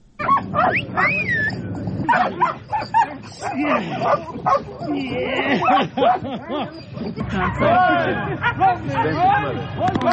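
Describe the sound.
Dogs bark, yip and whimper at a mine-detection dog training centre in Kabul. The calls come in many short, high bursts and whines, overlapping one another, with a murmur of people chattering underneath.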